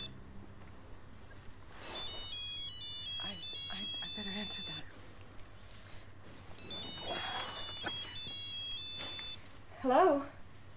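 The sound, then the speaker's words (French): A horrible phone ringtone plays in two long bursts of shrill, warbling electronic tones separated by a short pause. Faint talk sits underneath, and a brief voice is heard at the end. “Le téléphone sonne avec sa sonnerie horrible.”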